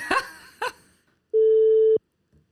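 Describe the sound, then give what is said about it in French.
A mobile phone dialing a call gives a single steady electronic tone lasting about half a second, after two short, brief sounds. “I'm just going to pick up my cellular mobile and ring away.”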